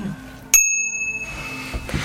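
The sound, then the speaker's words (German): A bicycle bell rings once, bright and sharp, on a path crowded with pedestrians on the way to the beach. The metallic tone hangs and fades over about a second, leaving a quiet background. “Frau Jansen muss mit ihrer Fahrradklingel klingeln, damit eine Gruppe von Fußgängern vor ihr rechtzeitig ausweichen kann”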